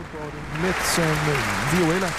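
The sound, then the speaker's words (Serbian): Audience applause follows a concert performance: a steady wash of clapping runs beneath a voice talking over it. “Ovo je aplauz za Evu Zajčik.”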